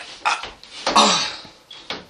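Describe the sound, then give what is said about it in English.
A door on a porch is pushed repeatedly and fails to shut, giving several irregular hollow bumps and scraping knocks of varying strength with short gaps between them and no talking. “I can't shut the door.”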